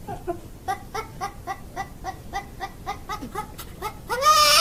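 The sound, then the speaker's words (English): A goat bleats in a men's room at a miniature golf course, giving many short, high, quavering cries in a steady, rapid rhythm before ending on a louder, drawn-out call. “What is that goat doing at the miniature golf men's room?”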